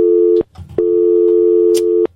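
Telephone busy signal on a phone line: a loud, steady tone that cuts off, pauses briefly, then sounds again for over a second before stopping, with no voices.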